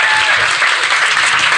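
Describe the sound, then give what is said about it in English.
Applause fills a living room: dense, steady clapping from a small group, fairly loud and unbroken for the whole short stretch. “The applause rarely happens in my living room, so this is so weird.”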